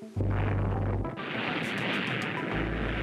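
A launch firing at the end of a countdown: a sudden loud blast gives way to a sustained, heavy rumbling roar lasting about three seconds, with a brief dip just after the first second.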